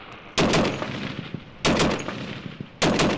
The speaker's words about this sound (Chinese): 乌克兰联合部队总司令纳耶夫在基辅一处训练基地视察时，亲自下场试射西方援助的五零重机枪，几乎一口气打掉一个弹匣的子弹。